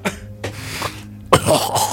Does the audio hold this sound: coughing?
yes